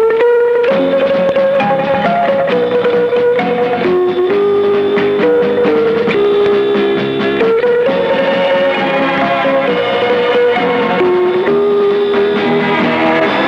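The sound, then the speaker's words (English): Theme tune of a weekend radio programme broadcast to Merseyside: loud, continuous instrumental music with a bright, stepping melody over full accompaniment, playing steadily for over ten seconds without any talk. “I shall do that right after I've played the theme tune, which, in case you're interested, sounds like this.”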